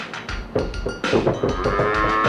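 A cow moos in a few low, throaty calls, the later ones long and drawn out, loud and alone with no talking.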